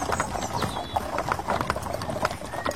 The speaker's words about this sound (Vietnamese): hai tai nó nhỏng lên nghe tiếng vó ngựa non gõ lóc cóc lọc cọc.